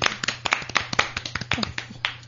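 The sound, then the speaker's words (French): An audience at a live evening show applauds with many sharp, separate claps in a quick, uneven patter that stays fairly thin, like a modest crowd. “Je vous demande d'applaudir Bulle Trop Cassée.”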